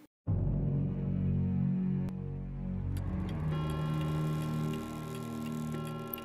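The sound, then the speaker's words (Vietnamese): A pendulum clock ticks at night, steady and fairly loud, over sustained ringing tones, with a couple of sharp clicks standing out partway through. “Tiếng đồng hồ vang lên rõ mồn một trong đêm tối, không gian im lặng đến rợn người. Chiếc đồng hồ quả lắc bên ngoài bỗng dưng vang lên 12 tiếng”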